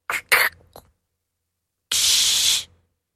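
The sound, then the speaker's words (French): A voice imitates a soda bottle being opened, making a few short clicking mouth bursts, then after a pause a steady, bright hiss lasting under a second before it cuts off. “Une bouteille de soda qu'on ouvre.”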